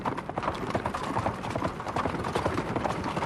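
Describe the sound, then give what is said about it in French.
A horse galloping with its hooves clip-clopping in a rapid, unbroken stream of hoofbeats that stays steady and fairly loud throughout, with no talking. “Allons-y, bête de grâce. Au galop.”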